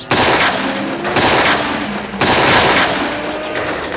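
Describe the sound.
Six-gun fire in a radio western sounds as loud, rough blasts. Three surges of booming noise ride over a constant gritty roar with no voices.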